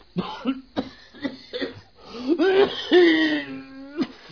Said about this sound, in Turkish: Bak öksürüyorsun.